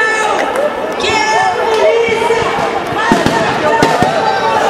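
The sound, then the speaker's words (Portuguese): Sharp bangs of bombs thrown during a street clash break out now and then, a few scattered blasts cutting through constant crowd noise, with people shouting and talking throughout. “Muita bomba. Muita bomba sendo tacada.”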